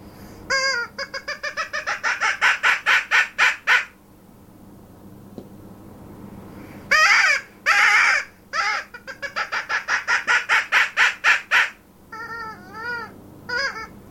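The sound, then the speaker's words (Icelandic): A person imitates the bark of an arctic fox with long, rapid runs of sharp, high, yapping barks in bursts. A clear pause falls after the first run, and softer wavering yelps come at the end. “hermir fyrst eftir gaggi tófunar”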